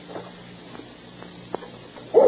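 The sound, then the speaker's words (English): A dog barks: a few faint, short barks over a steady low hum, then a single louder bark that is cut off at the end. “What's for the barking? I suppose Orion is coming indoors.”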